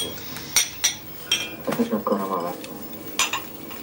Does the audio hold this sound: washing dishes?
yes